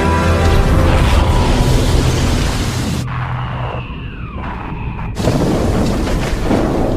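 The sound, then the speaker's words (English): A gunship fires rockets at a tower with loud roaring blasts. A short lull with whistling streaks comes midway, then the heavy roar returns. “Gunship fires some rockets at the tower.”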